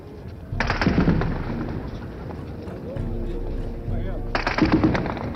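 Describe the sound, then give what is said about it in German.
Heavy gunfire erupts during the June 17, 1953 uprising in East Berlin, with Soviet tanks in the streets. Loud crackling bursts surge near the start and again near the end, with a voice talking over the continuous rattle. “beginnt soeben wieder ein heftiger Schusswechsel.”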